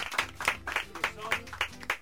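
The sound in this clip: Rhythmic clapping from a live audience at a radio show, honouring kalimba workshop leaders: regular, evenly spaced claps at a brisk pace under a busy background.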